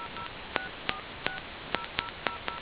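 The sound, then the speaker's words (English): Telephone keypad dialing tones: seven short, clean tone beeps pressed at an uneven pace, each a brief steady two-note chirp heard alone over faint line hiss. “To place a call, please dial the area code and number you are calling.”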